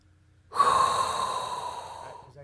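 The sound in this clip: A single long inhaled breath, drawn in loudly and airily for about two seconds with a hissing rush of air and no talk.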